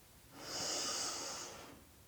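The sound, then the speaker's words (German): A single slow, deep breath is drawn in through the nose, a soft airy hiss that swells gently, holds, then fades over about a second and a half. “Und nun so ganz allmählich atme mal tief durch die Nase ein.”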